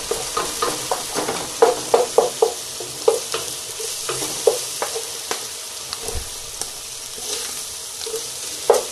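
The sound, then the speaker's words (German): Onions are stirred and pushed toward the middle of a frying pan. Many sharp scrapes and clicks of the spoon rise over a steady, hissing sizzle. “Das mischen wir jetzt. Dann schiebe ich die Zwiebeln jetzt so ein bisschen schon mal in die Mitte.”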